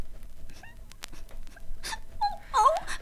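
A young girl whimpers and sobs in a dramatized Dutch fairy-tale recording. Quiet scattered sounds lead into a short, wavering wail near the end.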